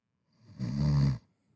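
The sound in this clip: A person imitates snoring with their voice, making a single rasping, low-pitched snore that swells over about half a second and then cuts off abruptly, with quiet before and after.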